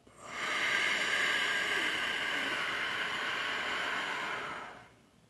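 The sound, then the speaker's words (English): A single slow, deliberate breath during a breathing exercise: a long, steady airy hiss that swells in and holds for several seconds before trailing off into quiet. “Breathe in. And out.”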